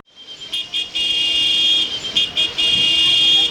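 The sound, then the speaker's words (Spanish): Busy street traffic with many cars and overlapping sounds: a dense, continuous wash of vehicle noise with a steady, shrill high tone running through it. It stays loud throughout, briefly dipping early on, with no talk. “Un montón de carros y de sonidos superpuestos.”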